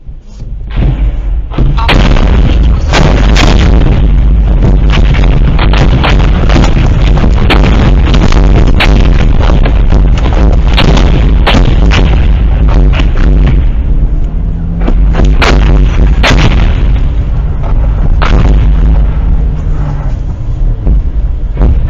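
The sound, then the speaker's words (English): Incoming mortar fire exploding around a car driving down a highway. Many sharp, booming blasts break through a constant, loud roar that runs the whole way, with no pause. “He's trying to drive his car down the highway while basically mortar fire is incoming, and he's trying to dodge it.”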